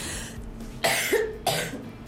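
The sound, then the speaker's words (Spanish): A person coughs a couple of times in harsh, breathy bursts, each sharp at the start and fading quickly, over a faint low background hum. “Sepan disculpar. Después del electrocutamiento le dio tos.”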